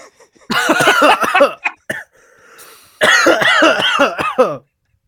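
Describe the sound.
Coughing after inhaling a raspberry bubbly drink: two loud bouts of harsh, rapid coughs separated by a short, quieter pause.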